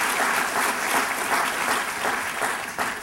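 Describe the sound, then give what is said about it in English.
Applause from an audience welcoming the president of the Kauffman Foundation to speak: sustained, dense clapping at a steady level with no voices standing out. “So please join me in a warm welcome to Carl Schramm, President of the Kauffman Foundation.”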